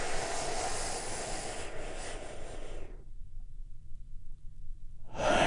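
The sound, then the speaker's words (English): A deep breath drawn in and let out: a long, soft, airy rush lasting about three seconds, then a quiet pause with only a low hum before the airy sound returns at the end. “let's all take a big, deep, healing breath right now.”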